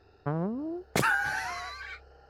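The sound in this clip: A voice imitates a fart: a short, wavering tonal squeak, then a louder, longer buzzing blast with a rough, brassy tone that holds for about a second before stopping.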